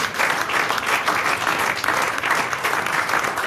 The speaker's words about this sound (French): Et c'est une standing ovation. Oui, standing ovation.